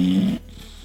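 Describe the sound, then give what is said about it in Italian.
A single loud, rasping snore from a person asleep, a low rough rumble lasting under half a second before dropping to a faint steady hum. “e senti come russa”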